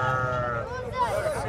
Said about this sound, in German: Wir besuchen einen traditionellen Viehmarkt in einem anderen Stadtteil von Qamischli. Auf dem staubigen Gelände stehen hunderte Schafe in kleineren und größeren Herden.